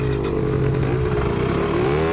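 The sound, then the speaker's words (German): Motor scooter engines rev as riders hurriedly drive off, making a continuous buzzing, rattling drone with a slight upward sweep in pitch near the end. “Auf die Roller, beeilt euch.”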